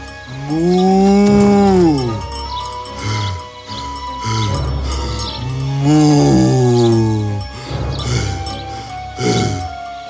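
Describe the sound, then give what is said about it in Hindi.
A tired buffalo lows while ploughing after sinking down mid-furrow, giving two long, deep, loud lows with rougher, noisy sounds between them. “एक दिन जोतते वक्त bounty आधे रास्ते में ही बैठ गया और भारी सांसें लेने लगा।”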